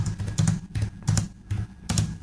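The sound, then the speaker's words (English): Keystrokes on a computer keyboard as a student types a request during an online class, coming in a few clustered bursts of clicks with quieter gaps between them. “So it's online class, and the student typed in his request for a bathroom break, and the professor stopped everything to read it.”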